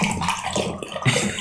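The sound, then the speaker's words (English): Water gurgles and rushes down a drain in a steady, swirling wash of noise with small bubbling fluctuations throughout. “That's the sound of money going down the drain as appointments are lost.”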